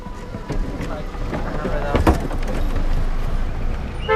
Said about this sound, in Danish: da vi kører ud forbi de mange bevæbnede vagter, ved porten ind til Hamid Karzai Internationale Lufthavn.